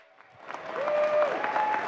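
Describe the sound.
Audience applause welcoming a speaker on stage, clapping that rises from sparse and quiet into a dense, steady ovation.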